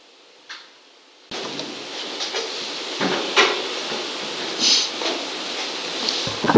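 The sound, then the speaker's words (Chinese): Chairs scrape and knock against the floor as they are pulled into a circle. The rough shuffling sounds come in a few uneven bursts over a constant hiss. “把这个椅子摆一摆，可以围成一圈”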